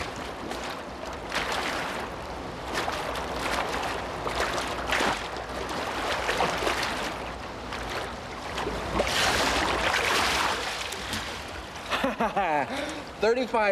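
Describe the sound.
Water splashes and churns as a swimmer races against the clock, a continuous rushing wash with uneven surges, and a voice speaks near the end.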